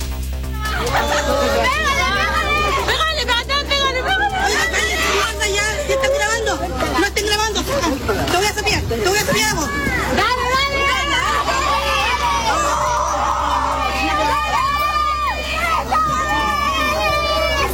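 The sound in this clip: Crowd commotion outside a school during a fight between teenage students: many young voices shout, chatter and call out at once, loud and continuous throughout.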